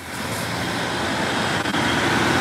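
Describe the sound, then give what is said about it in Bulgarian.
Road traffic in Kresna, with thousands of cars crawling slowly through the town toward the capital. A steady, dense roar of engines and tyres holds throughout without a break. “към този час продължаваме да изпращаме хиляди автомобили в посока столицата.”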